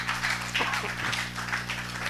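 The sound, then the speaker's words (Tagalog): A church audience claps in praise of God, a sustained, dense wash of many hands over a steady low hum. “Palakpakan po natin ating Panginoon.”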